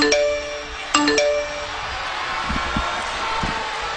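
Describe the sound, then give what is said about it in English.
The WWE email notification sound rings out as two bright, bell-like chimes, each a quick pair of tones. A steady, noisy wash follows. “the lights flicker, the email sound comes on, and Michael Cole comes up to the mic just for ambiance.”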